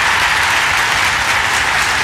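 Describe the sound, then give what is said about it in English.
A round of applause sounds as loud, dense clapping that holds even and unbroken from start to finish, with no voices over it. “Night workers, hold on. Got to give them a round of applause, man, I tell you.”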